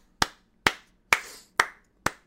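Five sharp hand claps, evenly spaced about half a second apart, each a crisp snap with a quick decay, heard alone against silence.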